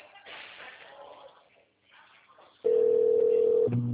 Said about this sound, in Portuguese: Tá chamando.